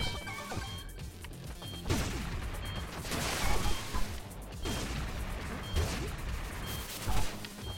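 A bomb exploding in a video game, heard as faint, dense crashing and smashing noise that runs continuously, with several heavier bursts standing out.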